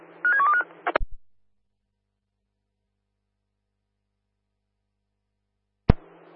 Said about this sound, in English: Roger, dialing now.